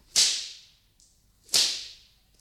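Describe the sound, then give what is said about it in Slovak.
Two loud whip swishes in a fairy-tale setting as a tsarina passes her servants: each a sharp, bright crack that trails off in a hissing decay, spaced well over a second apart. “A vzduchom často bič zasviští.”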